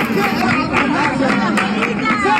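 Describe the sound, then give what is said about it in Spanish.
A crowd gathers outside the Peña La Bulería, a flamenco club in Jerez, talking in overlapping voices. The chatter forms a steady, lively babble over a short stretch. “La Bulería, este es el sonido de anoche a las puertas de la Peña La Bulería.”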